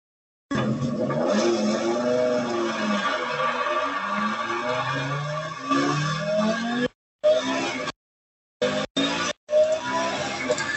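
A car engine from an online listing video revs and roars, its harmonic drone sweeping up and down in pitch. Later it breaks into short bursts separated by silent gaps.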